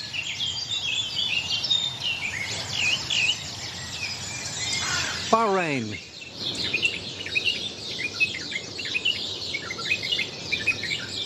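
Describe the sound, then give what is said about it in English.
A dawn chorus of many birds singing at once, a dense, continuous layer of high chirps, trills and twittering calls, with one quick descending call cutting through midway and a single spoken word. “It's gone from us to Brazil. That would be the next to the west, country to the west, which takes up the Dawn Chorus, and it goes on and so on, and it never stops.”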